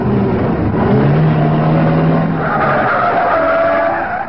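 Tires squeal in a long, continuous skid as a car speeds through a red light while fleeing police, its engine loud and steady the whole time, with no talk over it.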